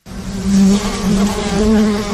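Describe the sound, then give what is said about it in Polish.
Buzzing of wild bees, hornets or wasps near Sieradz, Poland: a steady, continuous drone with a low hum, holding at an even loudness on its own for about two seconds. “Taki dźwięk niejednego przyprawia o dreszcze. Dzikie pszczoły, szerszenie czy osy są postrachem, szczególnie gdy upodobają sobie miejsce, które dzielą z ludźmi.”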